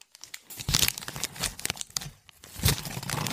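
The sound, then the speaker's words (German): Gift wrapping is torn open: continuous irregular crinkling, crackling and ripping of paper, with louder tearing bursts scattered throughout, and no voices. “du kannst ja jetzt mal dein Geschenk aufmachen.”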